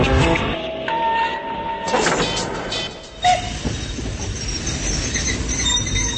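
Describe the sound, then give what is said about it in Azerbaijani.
A train travelling on rails toward Nova Gorica, Slovenia, a continuous rumbling clatter with a brief high wheel squeal and a short sharp knock partway through. “Qatardan Sloveniyanın Novogoritsa şəhərində düşmüşdüm.”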